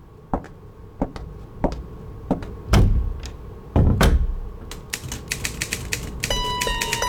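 Typewriter clatter as a newspaper column is typed in the early morning: irregular mechanical key strikes and heavier thuds, quickening into a dense run of clicks near the end with a brief ringing tone.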